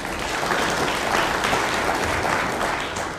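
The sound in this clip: Audience applause greets a presenter stepping up for a company pitch presentation: a dense, even wash of clapping that holds steady for about three seconds with no voices on top.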